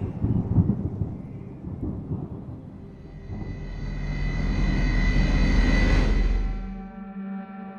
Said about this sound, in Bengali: আকাশে মেঘ জমেছে ডিসেম্বরের এই কনকনে শীতেও মুষলধারে ঝড় বৃষ্টি এলো বলে